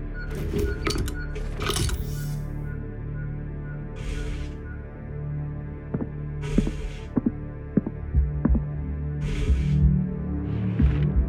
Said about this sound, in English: The near-field interference is not worth corrupted data. The transmitter will make noise, and you may not be able to hear me.